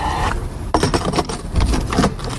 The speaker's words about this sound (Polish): No a przecież dziś to główny powód, dlaczego kierowcy decydują się na auta właśnie z takimi instalacjami. Czas znowu zatankować.